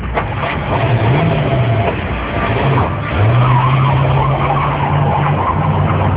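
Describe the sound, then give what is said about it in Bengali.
A car creeps forward near a school: a steady engine rumble with a low droning hum that holds through the whole stretch, over continuous road noise and no talking. “Driver, গাড়িটা আর একটু সামনে নাও।”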